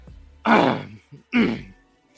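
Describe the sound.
A person clears their throat twice, two rough, breathy bursts separated by a short pause, with a faint grunt between them.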